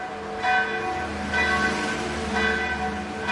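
Bells of the old Serbian Orthodox church of Saint Michael in Sarajevo ring out. Three clear strokes come at even intervals, each leaving a long, humming overtone ring that carries between strikes.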